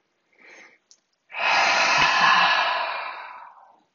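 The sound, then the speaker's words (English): A long, airy exhale through the mouth during a guided breathing exercise, steady and breathy before slowly fading, preceded by a short, fainter breath. “Some find it even helpful to breathe out of your mouth, like”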